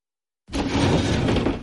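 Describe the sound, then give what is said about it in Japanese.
A sliding door is yanked open vigorously. After a moment of silence, a loud rumbling scrape starts abruptly and runs on evenly for over a second before easing off. “ただいま。 威勢よく引き戸を開けるが、何の反応もない。”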